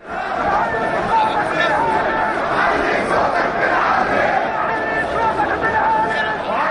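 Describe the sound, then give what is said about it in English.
A protest crowd of more than 5,000 Jordanians against soaring food costs and unemployment, calling on the prime minister to go, shouting and chanting together in a dense, continuous, loud roar of many voices. “in an echo of the Tunisian demonstrations, more than 5,000 Jordanians turned out to protest soaring food costs and unemployment and called on Jordan's prime minister to get out. Here's the sound of that.”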